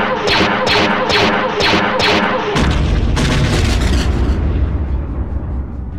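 Weapons fire and an explosion in a space combat video game as a fighter targets an interdictor generator: a rapid series of sharp energy-weapon bursts, then a loud, deep blast that rolls into a sustained rumble with more shots.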